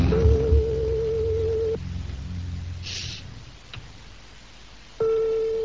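Telephone ringback tone heard while a call is being placed: a steady, pure mid-pitched tone sounds for under two seconds, falls silent for about three seconds, then starts again near the end over a faint background hum.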